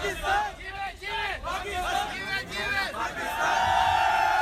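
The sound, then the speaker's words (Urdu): Loud crowd of hundreds shouting and chanting slogans to welcome the Champions Trophy-winning Pakistani cricket team outside the captain's home in Karachi. Many overlapping raised voices form a continuous roar that swells louder near the end. “سرفراز احمد نے اپنے گھر کی balcony سے trophy لہرا کر لوگوں کے زبردست نعروں اور تالیوں کا”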